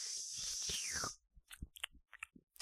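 Wet mouth noises of someone licking a microphone ASMR-style: a loud hissing rush with a downward sweep, then a few soft, clicky smacks and crunchy taps.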